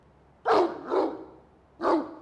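Dog barking: three sharp, loud barks, the first two close together and the third after a short pause, alone over faint background noise.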